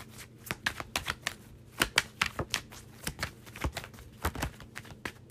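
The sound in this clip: Tarot cards being drawn and handled, making many quick, crisp snaps and light taps at an uneven rhythm. The sounds are fairly soft and stand alone with no talk.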